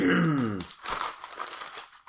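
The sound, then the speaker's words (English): A chocolate chip cookie's wrapper crinkles as it is opened: a few crackly rustles follow a brief vocal sound at the start, and the sound is quiet and uneven overall. “let me get my chocolate chip cookie out.”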